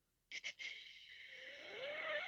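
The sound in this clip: A human voice imitates a snort wheeze: two quick, sharp nasal puffs followed by a long, drawn-out airy wheeze that grows slightly louder as it continues.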